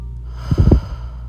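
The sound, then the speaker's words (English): A single deep breath taken during a guided mindfulness exercise: a short, low, airy rush of breath under half a second long, fairly loud over a steady background hum. “Take one more deep breath in and breathe out.”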